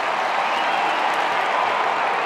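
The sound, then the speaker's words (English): Crowd applause at a football match, a loud, steady wash of noise from many spectators that holds a constant level, with no single claps standing out. “Big applause for Jezza.”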